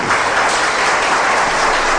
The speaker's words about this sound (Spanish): ¿Cuántos le pueden dar un aplauso al Señor?